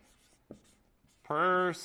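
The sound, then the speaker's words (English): A pen scratches faintly across paper during handwriting, a few soft strokes followed by a short voiced sound. “So I'm going to write”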